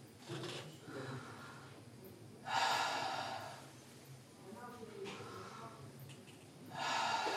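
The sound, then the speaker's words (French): A patient breathing in and out through the mouth during a doctor's lung examination. The breaths are soft and airy, arriving in several uneven puffs, and two of them stand out louder than the rest. “Alors, respirez par la bouche.”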